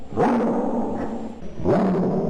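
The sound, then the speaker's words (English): A dog's vocalization played in reverse: two drawn-out, loud, growly swells with bending pitch, separated by a brief dip. “But do we add the dog? Do we add the dog? Oh my god. The dog's going in reverse.”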